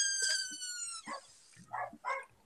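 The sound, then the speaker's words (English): A dog barks in a few short, faint bursts, heard alone with no speech over them. “Barking, Earl”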